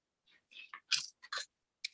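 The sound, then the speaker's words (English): Paper rustling as a page is turned close to a microphone: a few short, crisp crinkling bursts with brief gaps between them. It is quiet throughout, with no talking. “That was me turning the page to 2022.”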